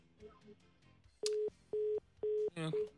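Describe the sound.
Telephone tones from a call to a radio phone-in line that goes unanswered: a run of short, steady mid-pitched beeps at even intervals, closing with a harsher, buzzier tone burst.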